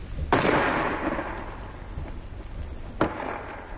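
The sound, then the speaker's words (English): Two bangs from a 5.5 gun firing at point-blank range on a fort wall: the gun's report, then about three seconds later the shell bursting on the wall, over a constant rumbling background. “First, a 5.5 gun fired at the wall of the fort for an hour or more at point-blank range, about 250 yards. The first bang you heard was the gun firing. Then the second was the shell bursting on the wall.”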